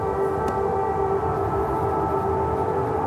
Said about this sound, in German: Bevor sie zu mir nach Berlin fährt, nimmt sie in Kiew den Luftalarm auf, während sie nachts, wie es die Sicherheitsvorschriften vorschreiben, in einem Raum ohne Außenwände und Fenster hockt.